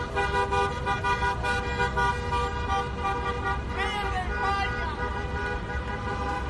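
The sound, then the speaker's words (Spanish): Car horns blare and a crowd of Real Madrid football fans celebrates at the Cibeles plaza in central Madrid, with loud, steady honking and crowd noise running through the whole clip. “Ese fue el sonido de la afición del Real Madrid en su mítica plaza de Cibeles en el centro de la capital.”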